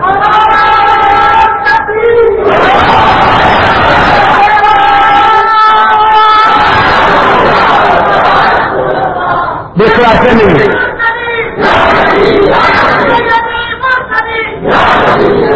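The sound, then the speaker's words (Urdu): A large crowd chants a slogan loudly in response to a leader, with sustained massed shouting voices that rise and break in waves. “نعرہ لگا لگا کر تھک تو نہیں ہو اگر ایسا دوسرا نعرہ لگانا تو بے شک نہ لگا”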